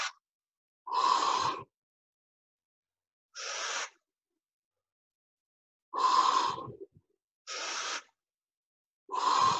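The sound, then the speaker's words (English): Forceful, deliberate exhalations through the mouth during a breathing exercise, several breathy whooshes evenly spaced with silent pauses between, each lasting under a second. “I'm doing it through my mouth to emphasize the breath.”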